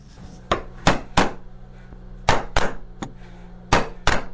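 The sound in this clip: Hammer and chisel strikes on wood as a carver in Nuristan, Afghanistan cuts the national emblem into a wooden piece. Several crisp, sharp knocks come in uneven clusters over a low, steady hum.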